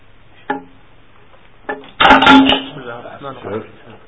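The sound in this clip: A microphone falls and clatters: a couple of light knocks, then a loud, brief crash of rattling hits with a short ring, amid people talking.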